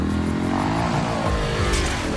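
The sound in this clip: Loud, continuous engine roar of a vehicle accelerating along sand dunes, a dense, steady drone that fills the whole stretch without a break.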